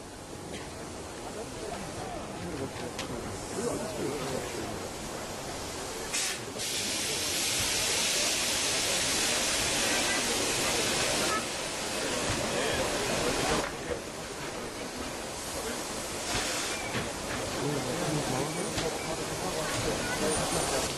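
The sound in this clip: Steam hisses from a locomotive as it is moved into a roundhouse, a broad rushing noise that swells loud for several seconds midway, while a voice talks throughout.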